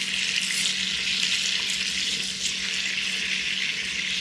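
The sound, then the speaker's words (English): Shrimp frying in a pan of butter, olive oil and garlic for Cajun fried shrimp, giving a loud, steady, hissing sizzle that runs without a break and with no talk. “And I'll turn the pan around like this and like this to get the butter to almost, you know, fully submerge many of these shrimp as they're frying.”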